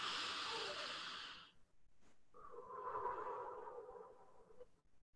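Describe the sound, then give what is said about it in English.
A person takes a deep breath: a long, breathy inhale, then a short pause and a slower, softer exhale with a faint hum to it, quiet and heard alone. “So I'm going to take a deep breath.”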